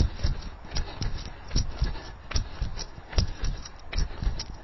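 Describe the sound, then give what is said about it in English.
Footsteps from a playground skipping drill, with knees tucked up to the chest and a double bounce on each step. Many quick, rhythmic thuds patter steadily throughout. “Firstly, we're going to do playground skipping. So we're going to tuck our knee up into our chest, double bounce, playground skips.”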